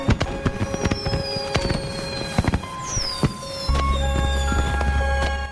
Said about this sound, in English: Fireworks shoot into the sky from a boat on the lake.